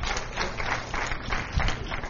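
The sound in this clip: Church audience clapping and shouting during a service: a dense, continuous roar of hands with voices mixed in, holding steady in loudness across the whole stretch.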